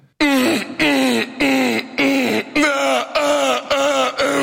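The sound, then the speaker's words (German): A voice imitates a neighbour's loud sex moaning as a rhythmic series of about eight drawn-out, breathy vocal moans. Each moan is loud and sustained, with short gaps between them and no other sound. “das ist mein Nachbar, der f***t jeden Abend sehr laut. Wirklich, das hört sich jeden Abend so an bei mir.”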